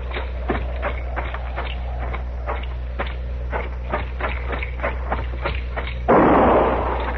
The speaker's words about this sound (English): That shot was in the shack.